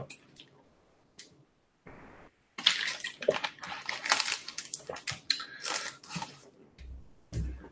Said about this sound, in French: Je bois un peu d'eau, parce que j'arrête pas de parler.